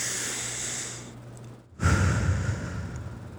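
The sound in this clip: A deep breath: a long airy hiss, a brief near-silent pause, then a fuller, lower breathy rush that slowly fades.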